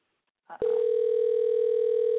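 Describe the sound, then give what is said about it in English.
An outgoing telephone call rings out. A short click opens the line, then a steady, unbroken ringing tone holds at an even loudness until the end. “We're calling this caller. New person called. Let's see if I got this straight. I hope they pick up.”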